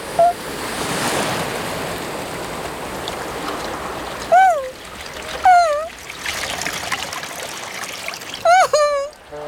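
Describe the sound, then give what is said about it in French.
Waves washing and splashing around paws cooling in the water as a big wave rolls in: a steady surging rush of water, with a voice briefly exclaiming a few times. “C'est très agréable d'avoir les pattes au frais. Ouh ! Attention, tout doux. Ouh ! Voilà une grosse vague.”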